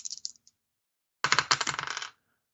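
Dice clattering as they are rolled for a skill check in a tabletop role-playing game: a few light clicks, a pause, then a dense, bright rattle of tumbling dice lasting about a second before it stops abruptly.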